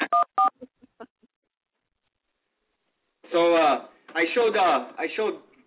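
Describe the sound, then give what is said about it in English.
Telephone keypad dialing tones: two loud short beeps followed by a few fainter quick ones. After a silent pause, a voice speaks. “And dial this number.”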